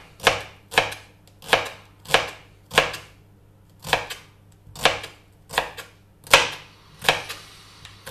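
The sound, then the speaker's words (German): A knife chops vegetables cut into half rings on a cutting board. The sharp, distinct strokes come at a steady, unhurried pace, each a crisp knock with a short tail. There is no talking. “Und dann schneidest du erstmal diese halbe Ringe runter. Und die machen wir dann gleich nochmal kleiner. Aber dann haben wir es schon mal grob geschnitten.”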